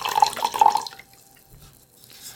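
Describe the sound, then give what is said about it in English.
Light-bodied wine is poured into an Irish Galway crystal glass: a bright splashing trickle for about a second, then it fades to near silence. “And we're going to pour a little bit of this wine, give it a little bit of a swirl.”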